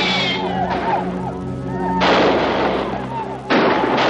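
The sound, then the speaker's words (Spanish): Rifle shots from a 1956 Western, fired at Comanche riders halted midstream in a river: a few loud, booming cracks with long, rumbling tails that stand out above a steady, sustained background. “coge su rifle y dispara a los comanches.”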